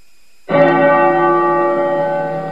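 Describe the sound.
A bell is struck once at a nuns' sect ceremony for a new leader. A sudden clear onset gives way to a long, steady ringing hum rich in overtones that barely fades, with no voices.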